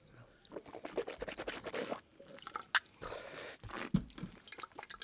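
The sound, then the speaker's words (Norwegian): Someone sips a drink to taste it: faint wet slurps and small mouth sounds come in irregular bursts, several close together, with no talking. “Skal vi ikke smake, og så se om vi, vi kommer noe nærmere?”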